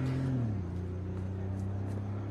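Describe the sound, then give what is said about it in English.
A Porsche speeds away, its engine giving a low droning hum whose pitch drops early on and then holds as a steady, moderately faint drone. “Zora marches toward a white Porsche. Julius watches as Zora speeds away.”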